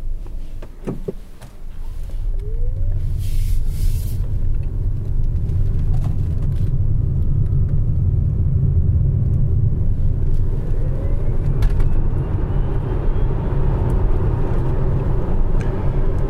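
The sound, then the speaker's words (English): Steady, loud low rumble from inside a futuristic car on the move. A faint, thin whooing tone drifts upward over the road noise toward the end. “I thought you might just want to hear what this thing sounds like. There's a slight sort of whoo in the distance, which is kind of nice and futuristic. Appropriate futuristic sound for a futuristic car.”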